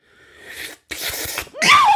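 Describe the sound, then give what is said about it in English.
A strange, drawn-out sneeze: a breathy inhale swells, then a short pause, a forceful noisy burst, and finally a voiced, wailing tail that sweeps up and down in pitch. “Was that a sneeze? Yeah. That was the weirdest fucking sneeze I've ever heard in my life.”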